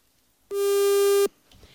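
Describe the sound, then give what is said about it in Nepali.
A telephone busy tone sounds as a listener's call fails to connect. One loud, steady buzzing beep lasts under a second and is followed by faint noise. “एकजना श्रोताले हामीलाई सम्पर्क गर्नु प्रयास गर्नुहुँदै थियो तर उहाँसित हाम्रो सम्पर्क हुन सकेन।”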